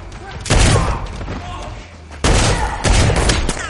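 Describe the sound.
Gunfire in a shootout from the action film John Wick: Chapter 2, likely a shotgun: three heavy, loud blasts among ongoing scuffling action noise, with a voice speaking over it.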